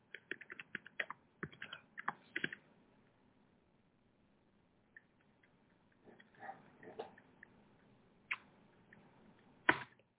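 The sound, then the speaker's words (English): Someone types on a computer keyboard in quick, irregular bursts of faint clicks, pauses for a few seconds, then resumes with scattered keystrokes and one sharper tap near the end. “I'm trying to type in the computer, waiting on the internet to move.”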